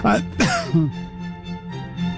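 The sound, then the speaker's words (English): A cough with throat clearing: a couple of loud, rough bursts near the start, followed by quieter throaty, rasping sounds. “little bit of a cough there”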